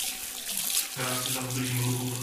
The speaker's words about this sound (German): Das Wasser ist eiskalt, stellt einer der Beamten fest, als er sich die Hände waschen will.